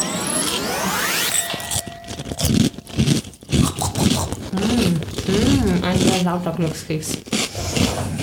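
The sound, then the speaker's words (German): A fortune cookie crunching loudly, with harsh crackling and scratchy bursts, while people talk over and after it. “Ein sehr lauter Glückskeks. Verdammt laut.”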